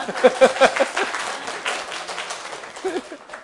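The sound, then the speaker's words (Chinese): A church audience clapping hands during a service: a burst of claps with voices over it, tapering into lighter, scattered clapping. “感谢主，我们拍拍手”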